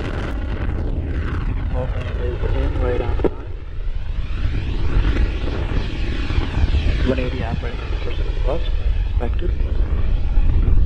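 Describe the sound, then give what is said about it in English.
Thunderous roar of an Atlas V rocket lifting off with the Curiosity Mars rover aboard, a loud, continuous low rumble with crackling texture that holds throughout, under a voice speaking. “Main engine start, 0. And liftoff of the Atlas V with Curiosity, seeking clues to the planetary puzzle about life on Mars.”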